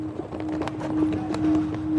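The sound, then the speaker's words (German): Several people walk on cobblestone pavement in the old city centre of Prague. Many light, clacking footsteps fall in an uneven stream over a faint steady hum. “Die vier laufen durch die Innenstadt von Prag. Fast überall Kopfsteinpflaster.”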